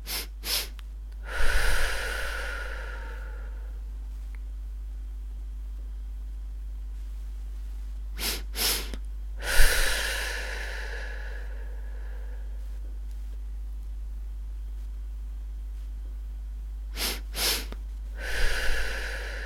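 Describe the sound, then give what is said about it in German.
Paced breathing exercise: three rounds of two quick sniffs in through the nose, each followed by one long, whooshing breath out through the mouth. Long quiet pauses with a low steady hum separate the rounds. “Zweimal kurz einatmen durch die Nase. Einmal lang ausatmen über den Mund. Und zwar so.”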